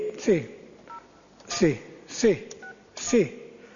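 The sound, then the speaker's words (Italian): Keypad tones as a telephone number is dialed: a few short electronic beeps spaced unevenly, with sharp clicks and falling chirps recurring between them at a moderate level. “sì, facciamo un numero, ecco. Ecco fatto, il numero ho fatto”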